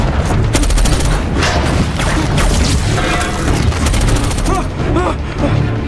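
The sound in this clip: Gunfire and explosions boom and crackle through a Transformers battle as Decepticons attack, a loud, dense, nonstop barrage with shouting voices breaking through near the end.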